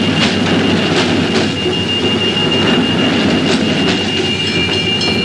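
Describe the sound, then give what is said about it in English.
A train passing, a loud, continuous rumble with a rhythmic clickety-clack of wheels over rail joints and a thin, steady wheel squeal running throughout. “Have to wait for the train to go before you start talking again.”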